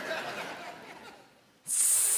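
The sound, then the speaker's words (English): A voice imitates a snake's hiss. A breathy, noisy hiss fades over the first part, then a sharp, loud, high-pitched hiss bursts in near the end. “Those are my best snake sounds. I hope you're okay with them.”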